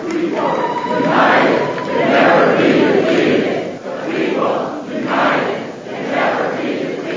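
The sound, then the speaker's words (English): Protesters packed inside the North Carolina General Assembly building in Raleigh during a Moral Monday protest chant loudly in repeated rhythmic bursts, voices surging and dipping in a regular pulse. “That's the sound of protesters packed inside the state legislative building.”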